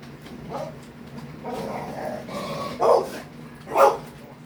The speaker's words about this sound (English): she sees another dog, she gets excited.